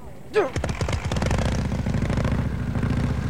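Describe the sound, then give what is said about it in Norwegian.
Small petrol engine starting right after its fuel tap is opened: a sharp crank, then rapid firing pulses that quickly settle into a steady, rattling idle, catching at once. “Er bensinkranen oppe i dag, da, tror du? Den er oppe. Alt i orden. I dag skal det gå unna. Vi skal bare starte først, så.”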